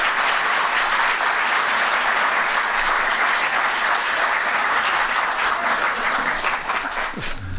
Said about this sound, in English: You could give her a standing ovation, too.